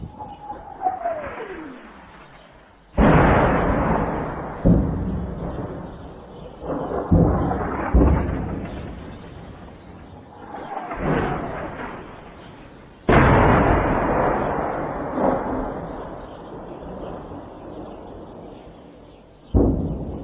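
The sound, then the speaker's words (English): Artillery shells explode during a government bombardment of the Baba Amr district of Homs, Syria: several heavy, deep booms with long rumbling decays, the first preceded by a descending whistle. “Today, a dissident in Homs recorded the sound of government forces bombarding the city.”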